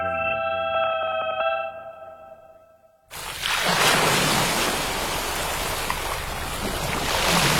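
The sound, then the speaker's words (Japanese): Ocean waves wash ashore in a loud, steady rushing roar that fills the second half, following a short passage of sustained tones that fades out. “ザバン、ザバン。海が光っている。”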